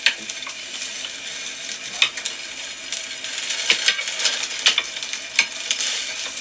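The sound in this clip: A thick rolled egg omelette sizzles steadily in a square frying pan. The hissing is broken by a few sharp clicks and scrapes as a utensil presses the egg into shape. No one speaks.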